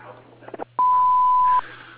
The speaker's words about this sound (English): you have reached Lost Creek Lawn and Fence Company. We're unable to answer the phone. If you please leave your name and number and a brief message, we'll return your phone call as soon as possible.